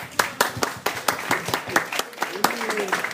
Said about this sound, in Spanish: Un aplauso.